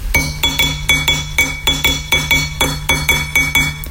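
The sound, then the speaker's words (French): An iron tumbler rattles and clinks in a steady, rapid rhythm of about three sharp metallic beats per second, each hit leaving a brief bright ring, loud and without talk. “Et puis, une timbale en fer qui fait ce bruit-là.”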